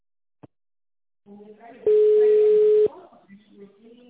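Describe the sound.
A telephone tone while placing a call: one steady, evenly pitched hum lasting about a second, preceded by a short click, with people speaking before and after it.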